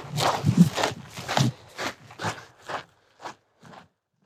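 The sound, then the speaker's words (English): Footsteps crunch along a granite trail among sheer mountain faces on Mt. Whitney, a steady series of gritty steps with uneven loudness and no talk. “Right now, I'm walking just among pure granite. All around me, kind of these sheer mountain faces.”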